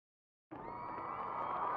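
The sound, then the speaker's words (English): Crowd cheering and roaring in a packed club: a dense, steady din that bursts in suddenly after a short silence and stays loud and even to the end. “It's time. The audience is going nuts out there.”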